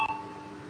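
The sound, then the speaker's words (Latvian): An electronic bell or tone signal sounds in a parliament chamber to call a vote. It is one steady, high, ringing tone that holds at a fairly even level for under a second. “Lūdzu zvanu. Balsošana.”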